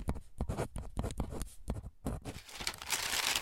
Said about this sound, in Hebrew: זהו, כתבתי הכל, אוקיי.